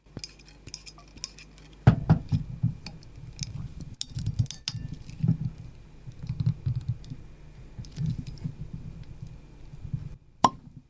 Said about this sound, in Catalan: Mira, fem una cosa. Obro aquest nou vi que hem fet, que és un negre que es diu El Rampell